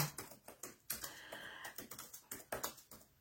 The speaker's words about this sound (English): I always have a problem typing and talking.